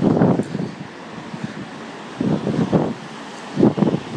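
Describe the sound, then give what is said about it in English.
Wind buffeting people outdoors, a rough low rumble of gusts that swells and fades in a few loud bursts with quieter stretches between. “The wind. People are buffeted.”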